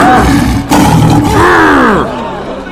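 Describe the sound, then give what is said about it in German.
A zoo lion gives a loud growling roar with wavering, curving tones that swell and bend before trailing off into a quieter rumble, all within about three seconds. “Leider verstehen die Menschen den Löwen nicht richtig. Oh, nein, nein, nein. Hey, alles cool. Ich bin's, Alex, der Löwe aus dem Zoo. Für sie hören sich seine Worte so an.”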